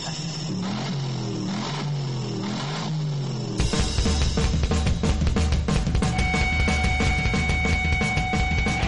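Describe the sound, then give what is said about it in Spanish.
A supercharged V8 car engine with 600 horsepower revs in repeated rises and falls, then surges into a louder, harsher sustained roar. “Sí, el último de los V8. Casi nada, muchacho. Ocho cilindros, Doble cámara. Dile lo del compresor. 600 caballos de potencia en las ruedas.”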